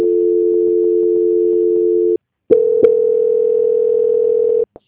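Telephone call transfer tone, a steady single-pitched hum that stops briefly, then resumes with a couple of clicks near its start and ends with a short click.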